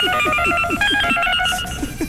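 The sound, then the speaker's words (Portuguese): Telephone ringing loudly and continuously in a rapid repeating pattern of bright tones, with a faint pulsing layer underneath throughout. “Tá ligando? Tá querendo ligando aí de novo? Ó, de novo, não para não. Tem o telefone aí, gente?”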